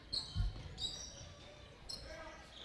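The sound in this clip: Faint dribbling of a basketball on a court during a game: a few soft, low bounce thuds under a commentator's continuous voice.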